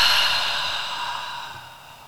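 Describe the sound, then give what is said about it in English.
A deep exhale during a breathing exercise: one long, breathy outflow of air that starts fairly loud and fades steadily over about two seconds, with no talking. “Belly, chest, let it out. One more time. Belly, chest, exhale.”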